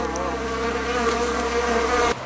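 Bees buzzing around hives, a dense, steady droning hum that holds an even level throughout, then drops off abruptly at the end, with no voices.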